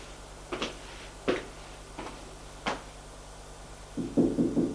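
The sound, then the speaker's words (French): Four sharp, evenly spaced knocks on a door ring out fairly faintly against a low, steady hum, followed by a short cluster of softer taps. “frappe à la porte.”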